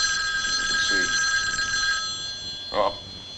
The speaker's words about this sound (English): Got to take a phone call there.